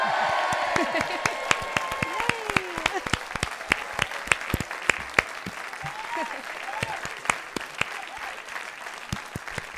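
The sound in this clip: A studio audience applauds a guest being welcomed on a show, with dense, steady clapping that continues for about ten seconds while voices talk over it.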